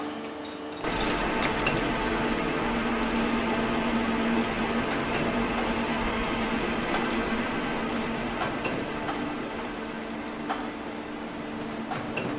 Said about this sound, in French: La machine, elle tourne à 7000 tours en minute. On lui reconnaît une largeur de dégauchissage de 50 cm.